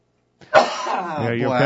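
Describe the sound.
A person coughs and clears their throat because of a tickle in the throat: one sharp cough-like burst, then a gravelly, voiced rasp that holds steady to the end.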